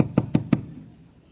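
Three sharp, evenly spaced knocks on a door in quick succession, followed by quiet as the last knock fades.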